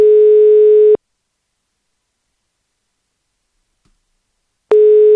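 Telephone ringback tone from a call to an apartment advertiser who no longer answers. One steady tone stops, a long silence follows, then the same tone starts again near the end.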